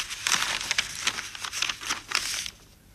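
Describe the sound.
Paper envelope crinkling as it is handed over, a series of soft crackly rustles and crumples in uneven bursts, fairly faint, fading out at the end.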